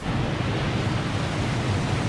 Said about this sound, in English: Another crashing wave. A tropical storm is brewing.